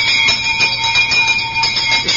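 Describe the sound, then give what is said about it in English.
An alarm gong on an anti-theft bag rings steadily with a bright, metallic tone that pulses in a rapid, even rhythm throughout. It is loud and heard alone, with no talking. “if you are beaten on the head and the bag is snatched off you and you don't notice, this alarm gong will sound.”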